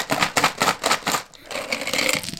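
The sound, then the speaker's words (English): Two dice, one coloured and one showing animals, rattle and clatter in a children's board game. A quick run of sharp clicking bursts comes first, then a softer, steadier rattle. “you roll these two dice and it's like a coloured dice and an animal dice”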